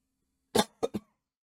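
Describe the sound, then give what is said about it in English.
A person coughing in a room where a cat had been the night before: three short, sharp coughs, a strong first one followed by two quicker, lighter ones, over a faint low hum. “my cat has been in this room last night and I am coughing.”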